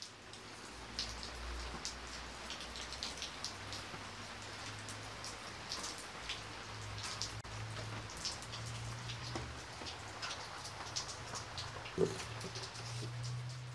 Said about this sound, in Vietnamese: Mọi chuyện vẫn cứ diễn biến bình thường nếu không có cơn mưa đột ngột